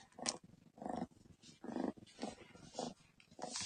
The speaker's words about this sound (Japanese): ゴロゴロしてます。